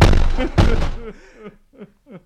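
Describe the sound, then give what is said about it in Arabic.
A door being forced and broken open in a dramatized scene: two heavy, booming bangs about half a second apart, followed by a man's voice speaking. “افتح افتح. انا لابد اكسر الباب.”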